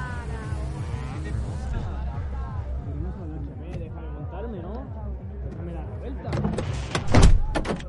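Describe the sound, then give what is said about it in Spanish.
A car's electric window being raised by an uneasy driver in a thriller film: a short motorized whir near the end, after a voice has been speaking over quiet background. “Jaime sube la ventanilla incómodo.”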